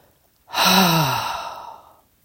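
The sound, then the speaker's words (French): A single slow, voiced exhale with a low guttural groan during a relaxation breathing exercise. It starts abruptly and is loud at first, its low tone sinking as the breath gradually fades out, with no other sound. “Et souffle doucement dans ton bassin en émettant un râle guttural.”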